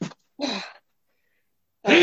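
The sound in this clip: Sneezing in three short, sharp bursts, with the last burst loudest and cut off at the end, and no talk between them.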